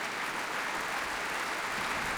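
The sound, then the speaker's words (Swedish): A concert audience applauds an orchestra as the musicians rise. The clapping is dense, even and unbroken, a fairly soft steady wash of hands with no single claps standing out. “Fick resa sig upp där. Ja, det är applåder för alla.”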